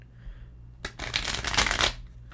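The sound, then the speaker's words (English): Snap shuffle of a deck of playing cards, a single dense, crackling riffle lasting about a second that rises sharply and cuts off, heard alone. “I think we'll do one more of those snap shuffles and then do the pull.”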